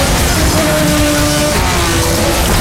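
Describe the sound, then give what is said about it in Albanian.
Formula 1 race cars roar off the line at a race start: a loud, continuous engine blare with a steady high whine running through it, unbroken for the whole stretch, with no talk. “Kjo është Formula 1 në më të mirën e saj. Dritat fiken dhe gara nis.”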